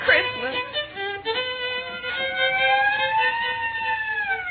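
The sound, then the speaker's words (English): A police squad car pulls up with its siren wailing, a loud, sustained tone with strong harmonics that dominates throughout. “How do you like that? I just started playing and already the neighbors got the police here. No, it's a squad car pulling up.”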